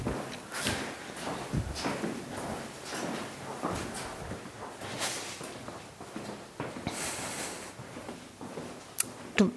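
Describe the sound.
Footsteps walking to the back of the wine cellar at Weingut Koehler-Ruprecht in Kallstadt, Pfalz. Steady scuffing steps mix with scrapes and a few knocks, with no talk.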